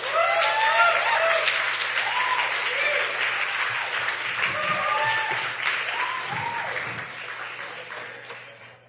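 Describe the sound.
Church audience applause welcomes a speaker to give his first sermon at a church in Denver: dense, sustained clapping for about nine seconds, with voices calling out over it, easing slightly toward the close.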